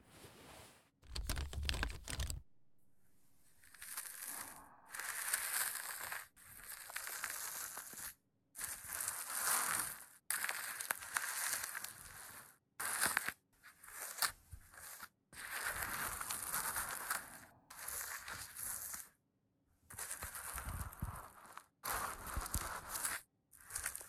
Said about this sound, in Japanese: ちょっと耳毛が気になって、 軽く整えさせていただきますね。